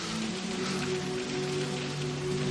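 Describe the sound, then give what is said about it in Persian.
Rain falls as a steady, even hiss of drops on a surface, unbroken throughout, with a low constant hum underneath. “چه بارون میاد.”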